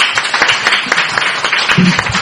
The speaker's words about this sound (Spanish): Os merecéis un gran aplauso, Muchas gracias.